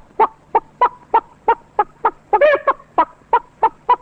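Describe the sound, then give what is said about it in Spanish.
Poultry in a henhouse call out in a steady run of clipped, evenly spaced clucks, about three per second, broken midway by a louder, warbling gobble-like burst. “este despertar en la tarde caliginosa de todo el gallinero. Esta cosa lenta.”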